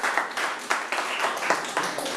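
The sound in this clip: Students in a classroom clap for a classmate, a fairly faint round of claps falling in a quick, regular rhythm that stays even from start to finish.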